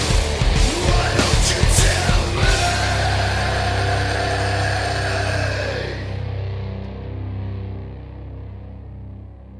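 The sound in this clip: A car engine drives off: a low, steady rumble with some clattering in the first seconds, then gradually fading as the sound thins out.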